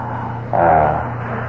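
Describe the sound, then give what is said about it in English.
A car arrives with a low engine rumble that swells for about half a second, then eases back into a steady background hum. No other sounds stand out. “Incidentally, I think I saw a car come up, so”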